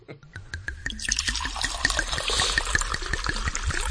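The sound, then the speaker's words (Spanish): Wine is poured for a tasting after the bottle is uncorked, making a steady gurgling trickle of liquid with many small splashes and drips that continue through the whole clip, alone without talk. “podríamos descorchar el vino que hoy se va a catar en esta casa”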